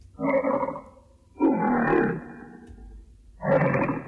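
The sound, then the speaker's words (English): The original lion roar from a film studio logo, used on the studio's first talkie: three rough, low roaring bursts of similar length, separated by short pauses, with a longer gap before the third. “Now here's the roar as we know it. And here is the original roar.”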